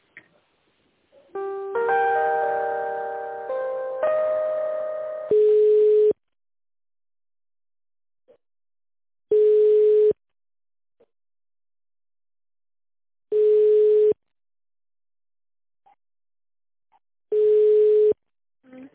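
Telephone ringback tone while an office call is transferred: four steady, mid-pitched beeps about four seconds apart, each under a second long, preceded by a short electronic tone sequence, with no talk.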